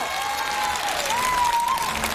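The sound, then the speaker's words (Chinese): An audience applauds after a stage stunt, a steady dense clapping that holds at an even level, with a thin whistle-like tone running through it. “掌声，”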